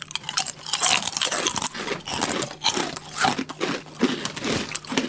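Crunching and chewing of a crunchy snack coated in chili oil: many crisp, dry crackling bites in a steady, busy rhythm, fairly loud and close, with no talking.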